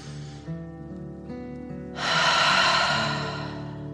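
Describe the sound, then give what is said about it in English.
A deep, audible dragon breath from a calming relaxation exercise for children, a long airy rush that swells over soft, sustained music and slowly fades. “Again, deep dragon breath in and out.”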